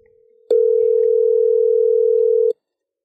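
An unanswered outgoing phone call rings once as a single flat, steady tone lasting about two seconds. The tone is loud and heard alone, with near silence before and after it.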